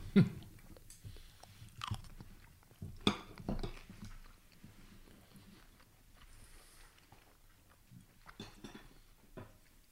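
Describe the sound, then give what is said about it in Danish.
Faint chewing and crunching of food, with a few sharper bites and light clinks of cutlery and dishes between softer mouth sounds. “Så er man nødt til at tage noget, og jeg ved godt, nogle lyttere vil jo sige, at det er virkelig irriterende at høre på. Men altså, hvis vi skal lave sådan en, så er vi jo nødt til at spise imens.”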